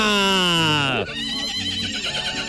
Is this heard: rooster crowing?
no